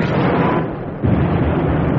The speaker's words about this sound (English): Zeppelins and bombs. Look up there. He's right, Becky Luke. Oh, Joss, are we in any danger? No, love, they're not dropping them here. They're dropping them over there.